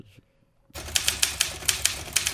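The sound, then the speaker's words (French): Typewriter keys clack in a quick, fairly even run of sharp strikes after a short quiet opening, with a faint mechanical rattle between the keystrokes. “Les écrivains écrivaient là-dessus. Là, ah, ok. On appelle ça des machines à écrire. Moi, j'avais une dactylo en tête.”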